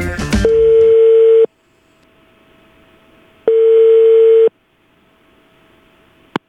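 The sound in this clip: Ringing tone on a telephone line while calling a tailoring shop. A short noisy burst opens, followed by two steady, mid-pitched tones of about a second each with a pause between, then a sharp click at the end.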